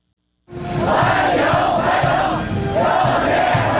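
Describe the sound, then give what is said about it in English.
Chinese teenagers chant a welcome in unison while waving Chinese and American flags, greeting a president arriving in Beijing. After a brief silence the loud crowd bursts in with a rhythmic, repeated phrase that continues to the end. “that's the sound of Chinese teenagers chanting welcome, waving Chinese and American flags in unison, greeting President Trump”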